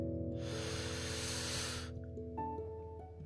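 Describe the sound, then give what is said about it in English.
One long, steady inhale hisses for about a second and a half as listeners take a deep breath during a children's storytelling session. It sounds quiet and breathy over soft, sustained instrumental music. “All right, so everyone, let's take a deep breath”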